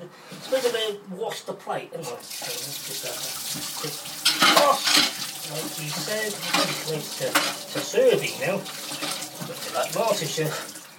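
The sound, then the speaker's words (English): Tap water runs steadily into a sink while a plate is washed, a continuous rushing spray broken by clinks, scrapes and splashes as the dish is handled under the stream. “I'm going to wash the plate.”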